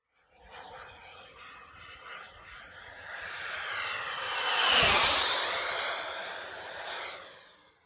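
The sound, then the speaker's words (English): Whine of an electric ducted fan RC jet model, a smooth, airy turbine-like roar that builds steadily to a loud peak mid-clip and then eases off as it passes, with no talk. “a jet model can also be operated electrically with excellent performance and a silent, nice turbine sound.”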